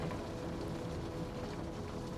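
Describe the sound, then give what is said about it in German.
Rain patters over a stormy sea in a continuous, dense hiss of drops and rushing water with no distinct individual events, holding a steady level throughout. “lauschst du dem Prasseln des Regens und dem stürmischen Meer.”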